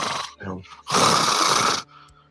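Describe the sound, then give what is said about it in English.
A person imitates heavy breathing into a phone: a couple of short voiced sounds, then one long, loud, raspy breath that stops abruptly. “Breathe heavy in the phone.”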